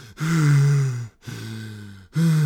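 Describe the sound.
A voice imitates heavy panting while climbing a mountain, giving three long, strained, voiced breaths with low groaning tones and short gaps between them.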